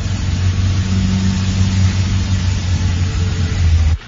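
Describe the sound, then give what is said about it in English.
A car engine keeps running while the car waits at traffic lights by roadworks: a steady, loud, low hum with a deep droning tone that holds evenly and then cuts off abruptly near the end. “Keep the engine running, love. Keep the engine running.”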